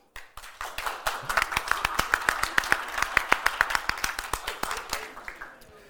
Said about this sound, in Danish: Nu prøver vi at lave en live afstemning. Hvis I synes, han er lækker, klap nu.